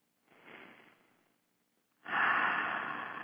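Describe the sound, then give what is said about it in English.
A deep breath in and out, heard alone: a soft, airy breath that fades, a short pause, then a louder, longer breath that holds to the end. “Take a deep breath. Another one.”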